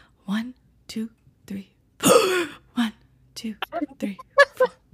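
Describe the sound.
A voice imitates a teacher's sharp, gasping inhale: one harsh, breathy rasp stands out in the middle, set among short vocal bursts before and after.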